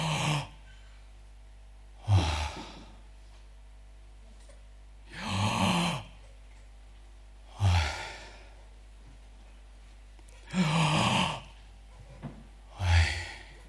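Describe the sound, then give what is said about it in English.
Deep breaths drawn in and let out, as asked by a doctor, six breathy, airy whooshes with quiet pauses of a couple of seconds between them. “Doctor says, take a deep breath in.”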